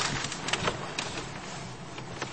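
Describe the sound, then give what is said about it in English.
Slot machine casino floor filled with a dense, steady wash of electronic and mechanical noise, broken by brief bright clatters. “This is previously an only slot machine casino. Looks like we're competing with a lot of people here. What's up, slots?”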